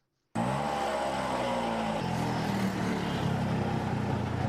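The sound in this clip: An auto rickshaw engine starts up abruptly and runs as a steady, loud, buzzing drone that holds at an even level throughout, with no voices heard.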